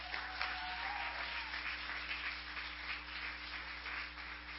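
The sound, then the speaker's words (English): Audience clapping at a church service: a steady, dense patter of many hands that holds evenly from start to finish, fairly faint, with no voices over it. “would you give her a hand clap as she comes”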